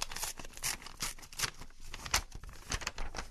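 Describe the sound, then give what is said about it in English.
A sealed envelope being torn open: faint, papery ripping and crinkling in several short, uneven bursts, quiet throughout with no talk. “And they returned it to us in this sealed envelope.”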